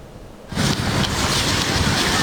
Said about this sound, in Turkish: Karadeniz'in hırçın dalgaları elektrik enerjisine dönüşüyor.